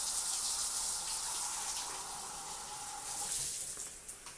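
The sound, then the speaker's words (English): Cold water runs steadily from a bathroom tap that is only partly turned on, making a continuous hissing gush with a slight surge near the end. No voices are heard. “I didn't even turn it all the way on. I was just washing it with cold water after waiting for this.”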